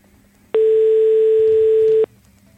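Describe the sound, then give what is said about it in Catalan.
A single steady telephone tone sounds when a call is picked up, a loud, even beep held for about one and a half seconds, alone with no talk. “Aquest tut ha sigut de agafar-lo.”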